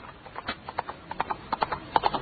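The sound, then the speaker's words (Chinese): Horse hooves gallop in many quick, rhythmic clip-clop beats, fairly faint and alone. “苏成骑着快马星夜疾驰赶往魏国去寻找张仪”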